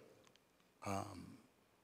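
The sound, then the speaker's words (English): A single harsh cough or throat-clearing burst erupts loudly into a microphone during a church meeting, lasting about half a second before dropping back to low background hiss, with no talk. “excuse me, I'm sorry, coughing the mic”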